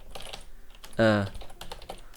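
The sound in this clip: Typing on a computer keyboard while editing a config file: a run of quick, light key clicks continues under a man's talking, with a louder burst in the middle.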